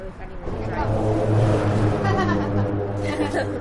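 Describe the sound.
A car drives over the steel grating of a lift bridge overhead, making a steady droning hum with a rough low rumble that swells and holds. People talk nearby.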